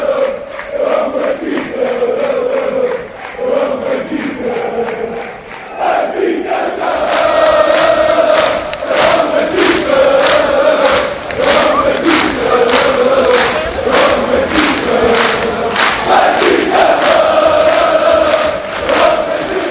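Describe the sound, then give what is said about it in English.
Benfica football supporters sing and chant in an otherwise empty Anfield stadium about fifteen minutes after a Champions League quarterfinal second leg. A massed chorus of voices holds a sung chant, and after a quieter opening it swells into loud singing over steady rhythmic clapping. “That was the sound of Benfica supporters at Anfield, at historic Anfield. That was about 15 minutes after the match ended”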